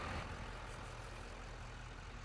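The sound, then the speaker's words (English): A turbo diesel truck engine runs with a faint, steady, low rumble that stays even throughout. “Nice little turbo diesel, man. Like I said, it got some get up, man.”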